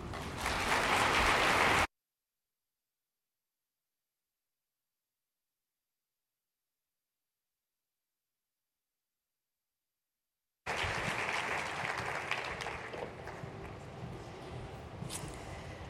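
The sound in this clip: Audience applause welcomes two speakers, heard as steady, dense clapping in two stretches separated by a long gap of silence, the later stretch fading slightly toward the end.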